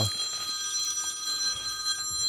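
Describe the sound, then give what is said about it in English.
A phone ringing: a steady, high electronic ringtone made of sustained bright tones that hold without pause, fairly faint, with no voices. “I forgot to turn off my phone.”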